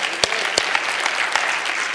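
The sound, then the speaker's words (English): Applause from a church audience, a steady, dense wash of many hands clapping together with a few sharper, louder claps standing out, heard on its own throughout. “amen, we can clap for that, praise God”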